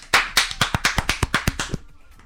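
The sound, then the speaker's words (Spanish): Hands clapping straight into a microphone in a live radio studio: a quick, even run of many sharp, loud claps that trails off into silence. “os ha aplaudido en el micrófono”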